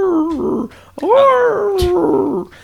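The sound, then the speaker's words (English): A human voice imitates a dog howling in pain outside an old stoop in New York City: two drawn-out, wavering, whiny cries. The second is longer and loud, rising and then slowly sinking in pitch. “New York City, and there's this dog out front just, you know, howling, just like in pain.”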